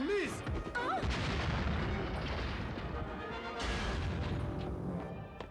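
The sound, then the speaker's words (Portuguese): A bomb explodes in an apartment as a cartoon sound effect from a 1994 animated superhero series: a loud, sustained blast rumble that stays heavy for about five seconds before easing slightly at the end. “o Harry acabou de botar uma bomba no apartamento do Peter”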